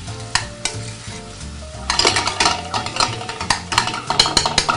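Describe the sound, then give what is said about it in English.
Onion and garlic fry in a pan as they are stirred. A steady sizzle runs beneath repeated scraping clicks of a utensil against the pan, which grow louder and busier after the first couple of seconds. “So our onion and garlic is cooking along nicely. It's almost tender.”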